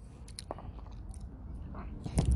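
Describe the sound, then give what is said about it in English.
Someone chewing and biting into food, producing a few soft, crunchy mouth sounds that stay faint and low throughout, with a slightly louder crunch near the end. “Sorry, I'm like making noises now with what I'm eating.”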